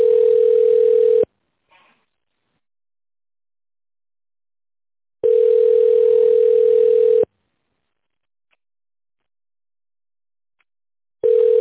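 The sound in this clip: Telephone ringback tone while a call is being connected: a steady, single-pitched tone that repeats in long, evenly spaced bursts with silence between them.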